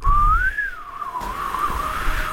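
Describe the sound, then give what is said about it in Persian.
A person whistles a wavering tune, a clear mid-pitched tone that glides up, dips and rises again, loud at first and continuing steadily over low rumbling background noise, with no talk. “چرا سوت میزنی”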